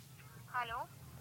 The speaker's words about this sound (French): Ah, il y a quelqu'un qui m'appelle.